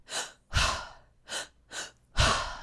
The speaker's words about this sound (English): She's got us laying on our back and we're doing this feminine cooling breath. And we're literally going.